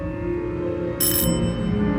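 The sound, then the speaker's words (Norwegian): A doorbell rings in a small apartment in Uppsala on a spring day: a short, bright metallic ringing burst cuts in partway through, above a steady low background hum. “En vårdag i mars ringer det på døra.”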